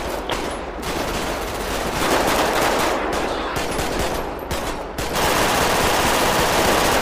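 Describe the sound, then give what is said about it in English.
Heavy automatic gunfire and rapid shots in a police video game shootout during a rural desert traffic stop: a loud, dense barrage broken by several brief pauses before it resumes steadily to the end. “Oh, shit, no! Oh! Shots fired.”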